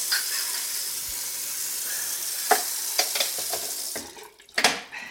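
Brunch frying in a kitchen: a steady bright sizzle runs under scattered clinks and sharp knocks of utensils, then thins near the end before one more burst of clatter.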